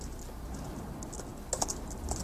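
Typing on a computer keyboard while entering a command to create a folder: a few light, crisp key clicks scattered over faint background hiss.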